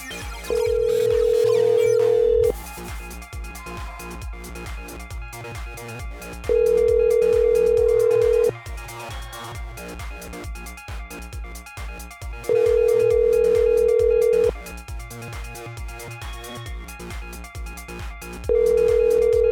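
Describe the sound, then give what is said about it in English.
Ringback tone of an outgoing phone call to someone's mother: four long, steady single-pitch tones of about two seconds each, separated by quieter four-second gaps, the last one cut off. “Calling your moms.”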